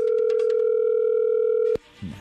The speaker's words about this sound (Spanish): A ver, no haga ruido, ahí se está marcando.